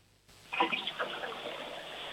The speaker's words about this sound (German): Ja, das war eine tolle Klospülung, muss man schon sagen.